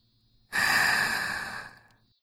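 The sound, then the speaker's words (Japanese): One deep, airy breath of about one and a half seconds, loud and hissing, rising suddenly and then fading, with near silence before and after. “吐いて。 深呼吸を繰り返してるね。”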